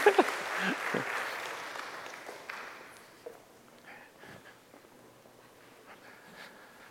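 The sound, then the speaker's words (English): A church audience applauds to welcome a family, with clapping that starts strong and quickly thins out. The applause fades to a soft patter over several seconds, with a few faint voices. “One more time, y'all. Let's welcome this beautiful family.”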